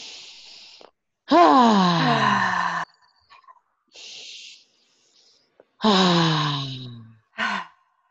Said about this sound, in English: Take about 3 to 4 big cleansing breaths. So it sounds something like this.